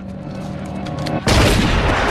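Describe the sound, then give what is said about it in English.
A film scene's gunshot fires at a limping, fleeing man. A quiet stretch with a low hum gives way midway to a sudden loud, sharp blast, followed by a sustained noisy rumble to the end. “who easily shoots him down.”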